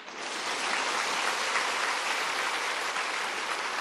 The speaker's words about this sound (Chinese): 掌声系你哋嘅